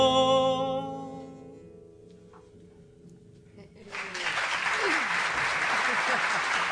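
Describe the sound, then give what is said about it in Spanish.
Applause from many hands bursts in after the last notes of a sung melody fade away, building into a steady, dense clatter that continues to the end. “Hasta aplausos. Muy bien, muy bien. Bueno, gracias por los aplausos.”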